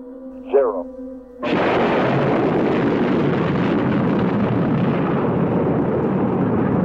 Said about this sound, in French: À 9h32, heure locale, Apollo 11 décolle. Une énorme boule de feu apparaît sous la fusée et se transforme en un torrent de flammes. La terre tremble.